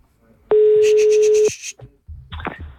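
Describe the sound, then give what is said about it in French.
Telephone dialing to call a hotel: a loud, steady tone of about one second with rapid pulsed beeps over it, followed by a few brief clicks and soft noise. “Appelez-moi l'hôtel, tiens. Je vais d'abord appeler une première fois.”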